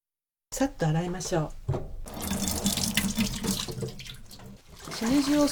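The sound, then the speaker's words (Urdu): Running tap water splashes steadily as trimmed shimeji mushrooms, split into small clusters, are rinsed at a sink. The water starts after a brief silence, and a voice is heard briefly near the beginning and the end. “شمجی کھمبیوں کے سرے کاٹ کر انہیں 3-3 کھمبیوں میں تقسیم کر لیجیے۔ اس کے بعد انہیں اچھی طرح دھو لیجیے۔”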